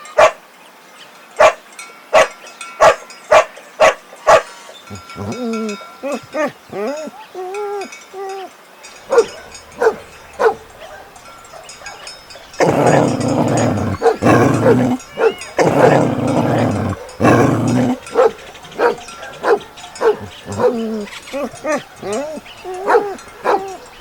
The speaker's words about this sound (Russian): Собака. Собака.